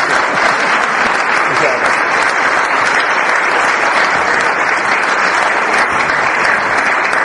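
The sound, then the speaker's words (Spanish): Audience applause fills the room at a conference after a talk, a dense and steady clapping that stays loud and even throughout with no voices breaking through. “Demos un aplauso, les pidamos una vez.”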